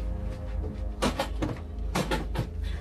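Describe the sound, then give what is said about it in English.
A storage chest in a panic room is thrown open, giving a few short, sharp knocks and rattles over a low, steady hum, all fairly faint. “throws open a chest. Inside is a fire blanket and various provisions.”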